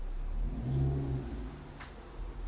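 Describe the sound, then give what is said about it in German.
A car engine revs as someone tries to park, a low rumbling drone that swells briefly in the middle, with no voices. “hier versucht gerade jemand wieder einzuparken. Es ist ein Schauspiel. Auch wenn du mehr Gas gibst, wird die Lücke nicht größer.”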